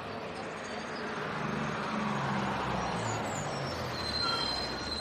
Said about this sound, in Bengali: বাস এসে গেছে